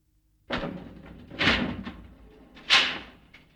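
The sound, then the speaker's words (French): An elevator door closes by itself: three soft swishing, rumbling bursts, faint and spaced about a second apart, with no voices. “Jacques Dupont entre dans l'ascenseur et la porte se referme toute seule.”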